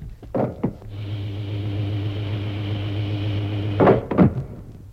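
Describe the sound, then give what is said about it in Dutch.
A hatch is shut after a ladder is pulled away, using two buttons by the entrance: a couple of knocks, then a steady electric hum for about three seconds, ending with more clunks. “Nee, eerst de ladder weg en het luik dicht.”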